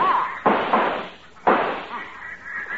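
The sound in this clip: Two sharp shotgun blasts ring out during a duck hunt, each a loud, abrupt crack followed by a short fading tail, about a second apart.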